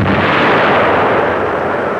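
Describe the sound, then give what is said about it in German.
A naval artillery salvo fires from the armoured ship Deutschland. It is a loud, dense roar of blast and rumble that fills the whole clip without a break. “Panzerschiff Deutschland klar zum Gefecht. Artillerie klar zum Feuern. Mit dem freundlichen Kreuzer. Mit dem freundlichen Kreuzer. Salvenfeuer. Salvenfeuer.”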